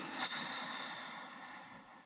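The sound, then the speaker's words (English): A slow, deep inhale through the nose, taken while sitting upright with the spine lifted and the shoulders over the hips. It is one long, steady, faint breathy hiss that holds for about two seconds with no other sounds. “Take a neat, nice deep breath now through your nose.”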